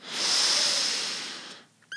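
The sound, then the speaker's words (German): Breath drawn in through the left nostril, one long airy inhalation heard alone, a steady soft hiss that swells early and slowly fades over about a second and a half. “Wir atmen jetzt durch das linke Nasenloch ein.”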